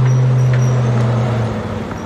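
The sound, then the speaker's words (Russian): A taxi's engine drones as the car pulls off sharply and climbs a road over a hill, a loud, steady low hum that drops away partway through, leaving a rougher road rumble. “Резко тронувшись, машина такси поднимается по идущей через холм дороги.”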